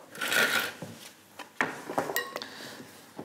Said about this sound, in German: dann kannst du die mal hier in die Schüssel geben. So, da kommt jetzt noch ein bisschen Öl dazu, damit das Ganze sich auch schön vermengen lässt.